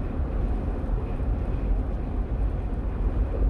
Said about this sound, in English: We're driving in my Jeep, if you can't tell, and we're heading to the bookstore.